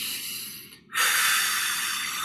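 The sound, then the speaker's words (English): A slow, de-stressing exhale, heard as a soft airy hiss that fades to a brief gap, then returns as a stronger, sustained breath out that holds steady to the end, with no talking. “even if we do something as simple that exhale, the de-stressing breath.”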